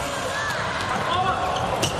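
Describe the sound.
A volleyball is served during a match. The ball makes soft bouncing thuds beneath steady commentary and crowd noise.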